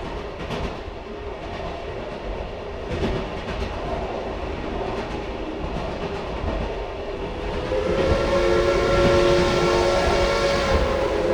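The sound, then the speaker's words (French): Interior rumble of a TGV high-speed train running from Paris-Montparnasse to Lille-Flandre: a steady, dense roar with rattling and clicking. Toward the end, the level swells and a sustained tonal whine joins in. “Mesdames et messieurs, la SNCF est heureuse de vous accueillir à bord de son TGV numéro 8584 en provenance de Paris-Montparnasse et à destination de Lille-Flandre.”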